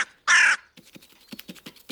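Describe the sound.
A crow gives a single harsh, loud caw, followed by a run of light, irregular taps and clicks as the bird works at pebbles set out in a problem-solving test.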